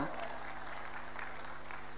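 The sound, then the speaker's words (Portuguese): Audience applause for a show's presenters: a quiet, steady wash of clapping that continues evenly for about two seconds, with a faint, steady tone beneath it. “Para eles, um forte aplauso!”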